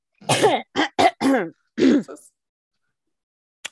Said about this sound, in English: Clear the COVID out of my throat.